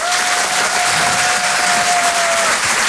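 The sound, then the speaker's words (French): A stand-up comedy audience cheers and applauds as a comedian is welcomed to the stage, a loud, continuous roar of clapping and crowd noise that stays full throughout. “Je vous demande de l'encourager très chaleureusement, s'il vous plaît, faites du bruit pour Nathalie Boitel.”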